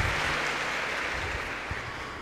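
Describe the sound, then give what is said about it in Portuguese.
Applause rises from the audience at a Catholic religious gathering, honouring the priest. A steady, moderate patter of many hands claps continuously and fades slightly toward the end. “Uma salva de palmas para o nosso parco. Obrigado.”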